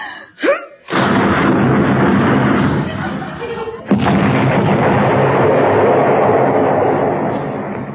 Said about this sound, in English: All right, little lady, prove it. Destroy the moon.